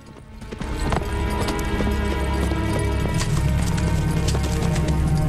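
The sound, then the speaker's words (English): Horses gallop away with fast, rolling clip-clop hoofbeats as a rider in a Western flees with two henchmen following. The hoofbeats swell within the first second, then stay loud and steady. “Abel gallops away, followed by DeRose's two mean-looking henchmen.”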